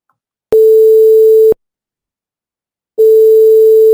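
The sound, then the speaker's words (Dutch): Telephone ringback tone as a radio presenter calls a listener: a steady mid-pitched tone sounds for about a second, falls silent, then starts again and runs to the end. No voices. “We gaan nu Ilse bellen.”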